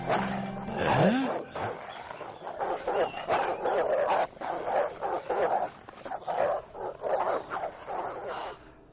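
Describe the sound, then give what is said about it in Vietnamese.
Several dogs bark and yip in rapid, loud, overlapping bursts, with whimpering mixed in, forming a dense and almost continuous clamor. “ông xem có những con chó kìa. Hôm qua đâu có đâu, ở đâu tới vậy?”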